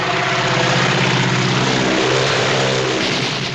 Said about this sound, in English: He shifts his gaze up to the seamless blue sky as the crop duster roars toward him, descending at a steep angle.